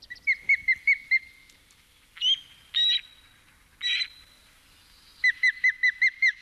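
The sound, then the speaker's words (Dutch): Osprey calling: thin, high whistled chirps in a quick series, broken by a few longer squealed notes, then another fast run of chirps, fairly faint and with no talk. “Het is een heel iel geluidje voor een reusachtig vogel, de visarend.”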